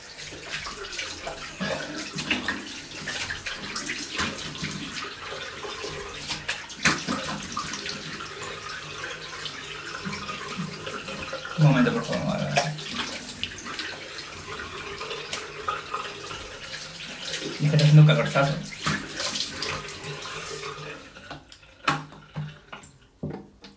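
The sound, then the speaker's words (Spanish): Water runs from a tap into a sink while someone washes their face: a continuous soft rush with a couple of louder splashy swells, then it stops near the end. “Espera, te voy contando, me voy a lavar la cara primero”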